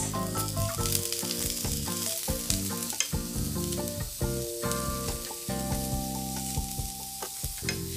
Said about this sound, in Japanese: ナスが油をしっかりこう吸って美味しく仕上がりますので先にちょっと炒めますね